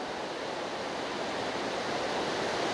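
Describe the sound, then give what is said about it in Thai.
Heavy rain pours in a steady, dense hiss, loud and unbroken from start to finish with no voices. “อินชาอัลลอฮ์ฝนตกหนักนะครับ”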